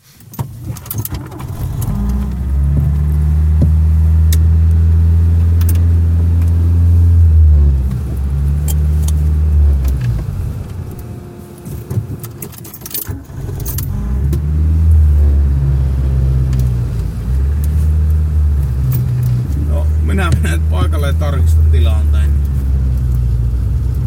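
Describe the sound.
A car drives off and accelerates, its loud engine rumble climbing in pitch in repeated steps as it shifts gears, dipping briefly midway before pulling away and revving up again.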